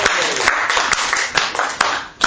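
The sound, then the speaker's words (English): Audience applause at a live show: a dense, noisy wash of many hands clapping, with a few sharper individual claps standing out before the sound thins near the end. “Let's give Sandra a round of applause.”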